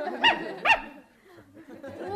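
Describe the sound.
A dog gives two sharp barks in quick succession, as if counting to two. Quieter, low, intermittent sounds follow.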